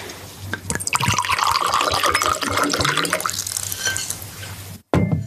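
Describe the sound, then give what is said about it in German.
Wine poured to refill glasses all round: a continuous gurgling, splashing stream that holds for several seconds at a fairly loud level, then cuts off briefly before a short final burst. “Ich glaube, ich schenke uns allen nochmal nach.”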